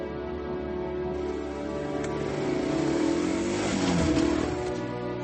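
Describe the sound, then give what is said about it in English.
A buggy drives away through the woods with a steady mid-pitched engine drone. It revs higher and grows louder midway, then eases back. “Cubby drives the buggy away through the woods”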